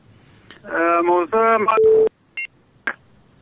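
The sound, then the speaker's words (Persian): Telephone tones as a phone call is cut off: after a stretch of speech, a short steady tone and then a couple of brief electronic beeps sound alone and fairly quiet. “تماسشان قطع شد.”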